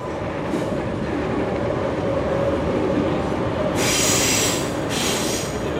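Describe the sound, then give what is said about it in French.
An RER commuter train passes in the 7th arrondissement of Paris near the Seine, a loud continuous rumble of wheels on rails with brief high hissing squeals toward the end and no talk. “Ce que vous venez d'entendre, c'est le RER.”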